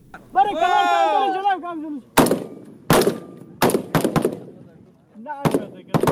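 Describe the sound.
Gunfire rings out during commando training in Herat: several sharp, loud shots in an irregular sequence, some close together and others spaced apart. A shouted voice comes before the shooting, and another brief voice is heard between shots.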